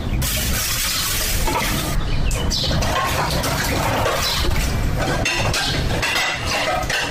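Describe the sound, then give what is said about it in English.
Utensils are washed outside a one-bedroom house in the Ndogo slums of Mombasa County, with continuous clinking and clattering of dishes mixed with splashing water, busy and fairly loud throughout. “It's 7 in the morning. I find her washing utensils outside her one-bedroom house.”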